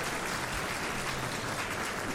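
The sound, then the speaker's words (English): A room full of people gives a round of applause, with loud, dense clapping that stays continuous and even throughout, with no pauses or peaks. “Round of applause for today.”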